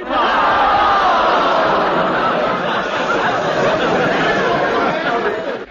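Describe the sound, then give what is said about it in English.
Crowd noise from an audience watching Buffalo Bill's Wild West Show: a dense, steady roar of many voices chattering, shouting and laughing, loud and unbroken throughout. “I reckon I can hear the sound of an audience being entertained by Buffalo Bill's Wild West Show.”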